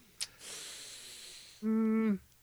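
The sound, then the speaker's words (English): A sharp hissing inhale through clenched teeth lasts about a second. It is followed by a louder, steady, low tonal sound that holds briefly, then stops. “It's the inhale through the like, clenched jaw.”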